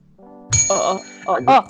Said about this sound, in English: waiting to ring this bell. I'm just waiting for it.